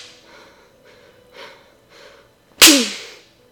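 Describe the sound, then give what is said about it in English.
A belt delivers a single sharp smack, a loud crack with a brief ringing tail, after a few soft, breathy sounds. “And smack. With a belt.”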